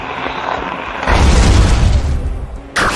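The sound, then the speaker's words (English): A ghost-type Psycho Trick special attack effect from a video game battle: a sustained noisy wash swells into a heavy, low rumbling boom, then a sharper bright burst hits near the end. “Choose a move. Psycho Trick. Ghost. Special effect. Point 65. Mortrex used Psycho Trick.”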